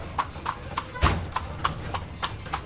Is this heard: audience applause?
no

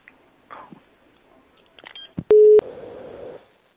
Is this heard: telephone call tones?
yes

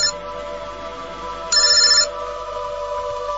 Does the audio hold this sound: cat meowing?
no

